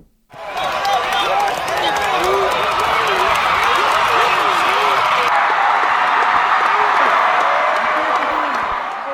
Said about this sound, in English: They added fake crowd noise. I want you to listen to this. Really? This is Cut 11. You'll hear it a little bit at the beginning where it's kind of sparse, and then all of a sudden you're going to hear thousands and thousands of people that weren't attending the game.